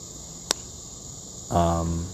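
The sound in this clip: Insects chirp outdoors in a forest at night, making a steady, high-pitched, continuous trill. A sharp click cuts in partway through, and a voice briefly starts near the end.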